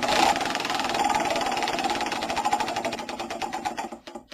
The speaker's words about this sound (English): The wheel. Let's bring it back out here. Let's go. And spin.